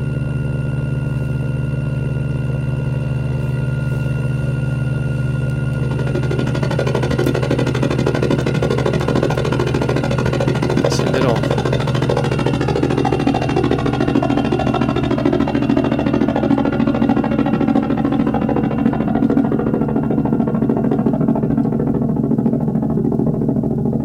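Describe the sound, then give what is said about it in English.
An airborne vehicle passing overhead gives a steady, broad engine roar that thickens partway through, while reflection off the ground adds a hollow, comb-like coloring that slowly sweeps down and back up as it moves. “As it moves, you'll hear a notch filter sweep down and up as it passes overhead.”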